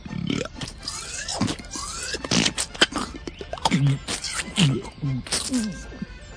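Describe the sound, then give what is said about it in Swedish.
A man imitates a hippopotamus with his mouth, producing a string of burp-like grunts, low croaking bursts and wet, scraping mouth noises in uneven pulses, several of them clustered toward the end. “Och vad härmar du då? Jag härmar flodhästar. Flodhästar? Ja. Det låter annorlunda. Kan vi få höra en flodhäst då kanske?”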